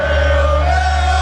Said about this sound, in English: Oh, you know what that's the sound of? The Arsenal parade yesterday that our very own Khalid was at as well.